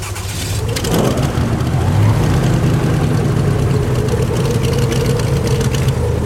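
A small boat's engine starts early in the morning, catching within the first second and then settling into a steady, loud, low-pitched idling rumble that continues throughout.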